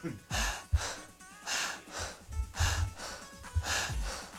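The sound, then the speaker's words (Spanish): Breathing only through the mouth during a breathing exercise: a series of soft, airy inhales and exhales in a loose, fairly regular rhythm, each a brief breathy rush, quiet throughout. “Vamos a respirar solamente por la boca.”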